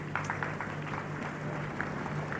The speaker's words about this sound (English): Okay, madam, please come forward. Let's clap for her.